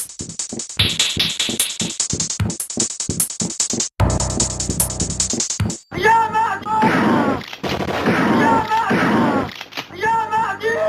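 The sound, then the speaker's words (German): Gunshot sound effects with music: many sharp, rapid shots crack through the first few seconds, followed by a dense, loud layer of wavering tones and rumbling bursts. “Und zusammen mit diesen Schussgeräuschen schafft das schon eine recht dichte, bedrohliche Atmosphäre”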